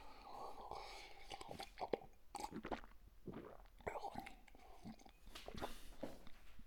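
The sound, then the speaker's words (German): Someone takes a sip of a drink: quiet slurps and wet mouth clicks, with soft breathy, whispery sounds between the sips. “Ja, ich nehme mal einen Schluck hier.”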